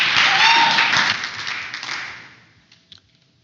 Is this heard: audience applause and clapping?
yes